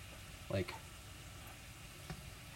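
Potatoes frying in a pan give a faint, continuous sizzle, broken by a couple of brief soft clicks.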